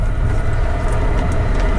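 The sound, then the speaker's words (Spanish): A train passing with a loud, steady rumble, heavy low-end noise running unbroken throughout and no voices. “Se nos cuela ahí los trenes.”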